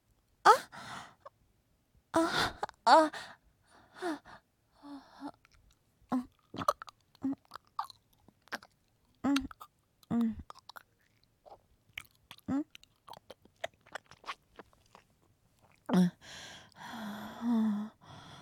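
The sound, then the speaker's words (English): Someone eating and chewing food: many short, wet mouth sounds in an irregular rhythm, mixed with breathy sighs and gasps, moderately loud with brief pauses between bursts. “I'll happily eat it.”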